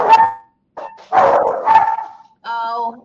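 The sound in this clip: A dog barks at the house, with several loud, sharp barks in an uneven burst separated by short gaps, ending on a higher, more drawn-out yelping note.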